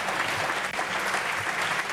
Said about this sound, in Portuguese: Aplausos da bancada do PSD.